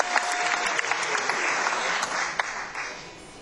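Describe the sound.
Applause from a concert audience for the sound mixer running the show: steady, even clapping from many hands, moderately loud throughout, with a few sharper individual claps standing out.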